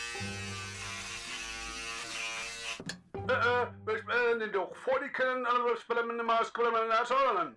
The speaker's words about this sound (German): Die Hornisse, ein Rasierapparat.